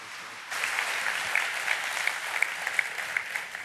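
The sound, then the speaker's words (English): A church audience applauds to welcome a guest teacher at a morning gathering. Dense clapping starts after a brief quiet moment and continues steadily, with a few sharper individual claps standing out near the end. “Why don't y'all join me in welcoming him as our teacher this morning?”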